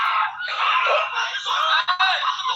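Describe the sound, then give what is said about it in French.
A man screaming in one long, sustained, high-pitched cry that wavers and breaks briefly near the end, loud throughout and heard alone. “il y a du son, hein? Le gars crie, hein?”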